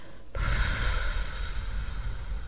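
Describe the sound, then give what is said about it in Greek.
A deep, gentle breath in taken during a relaxation exercise, a soft, steady airy rush lasting about two seconds. “Πάμε τώρα να χαλαρώσουμε με τις εισπνοούλες και τις εκπνοούλες όπως ξέρουμε. Μία εισπνοή βαθιά και απαλά απαλά.”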